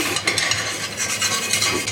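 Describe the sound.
A frittata sizzles in a pan on the stove as it is flipped, with a steady frying hiss and a few light clatters of the pan and utensil.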